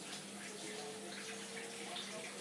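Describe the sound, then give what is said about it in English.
Running tap water while hands are washed under it: a steady, faint, even hiss of flowing water with no clear breaks. “just washing my hands in the interest of health and safety”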